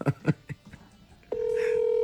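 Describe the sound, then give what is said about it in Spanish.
Telephone dialed to call someone: a few short key beeps, then after a pause a steady continuous tone sounds to the end. “¿Estás llamando al Toxi? Sí.”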